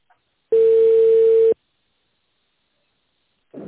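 A telephone tone plays while a call is being transferred: one flat, mid-pitched beep lasting about a second, sounding alone and then cut off into silence.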